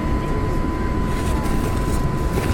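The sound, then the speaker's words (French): An airplane takes off with a dense, steady roar of engine noise and a constant hum held beneath it, loud and unbroken throughout. “Si, préparez-vous au décollage.”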